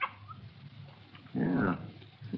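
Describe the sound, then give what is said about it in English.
A young female puppy whimpers softly: a faint, thin whine with one louder, higher whimpering burst partway through, over low background rustle. “There you are. It's a little girl. Just a puppy.”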